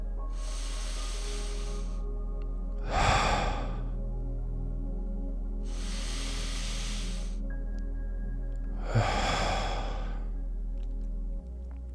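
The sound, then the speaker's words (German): Slow, deep breathing with air let out through the mouth: four long, airy breath sounds, evenly spaced and unhurried, over a faint, low hum. “versuche ganz langsam deine Atmung zu vertiefen. Mit jedem Atemzug etwas tiefer einzuatmen, die Luft aus deinem Mund herausfallen zu lassen.”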